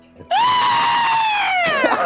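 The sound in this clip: A man gives one loud, sustained scream that lasts over a second, rising sharply at the start, then holding and slowly sinking in pitch as it fades out.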